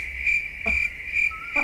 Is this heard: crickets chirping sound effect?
yes